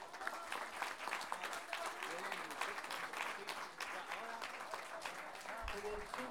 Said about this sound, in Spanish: Así que un aplauso por todo eso.